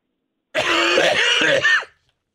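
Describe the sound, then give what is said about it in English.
A person clears their throat in one long, loud, rasping burst lasting over a second, with a brief extra push at the end and no speech around it. “Excuse me, doctor. My throat. I had something in it.”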